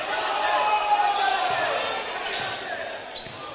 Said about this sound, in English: starts dribbling with the ball. He's at the top of the key.